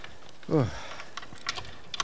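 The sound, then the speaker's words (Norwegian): Faint metallic clicking of a key being tried in a rusted door lock that it does not fit, a few sparse clicks following a short vocal sound, quiet throughout. “men jeg skal bare låse opp først her.”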